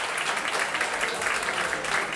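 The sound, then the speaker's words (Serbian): An audience applauds the pianist at a live jazz concert with a steady, dense wash of clapping that holds even in loudness from start to finish. “Ivan Aleksijević na klaviru, molim vas jedan aplauz i za gospodina Ivana.”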